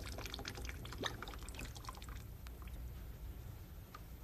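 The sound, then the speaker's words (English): Water drains from a bath or sink after the plug is pulled, making a steady gurgling, trickling rush with a low rumble that runs throughout at a fairly even level. “And now I'll pull the plug on the drain.”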